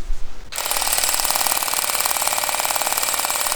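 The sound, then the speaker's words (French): Automatic comb-and-scissor cutting machine harvesting radish micro-greens. Its fast, even mechanical buzzing rattle starts abruptly after a brief moment and runs on steadily. “une machine à mi-chemin entre un peigne et un ciseau, un truc automatique, qui permet vraiment de découper comme si on coupait des cheveux en fait, sauf qu'on coupe la micro-pousse.”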